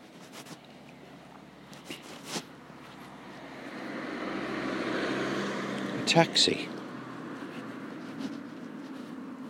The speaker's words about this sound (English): A taxi coming into the estate.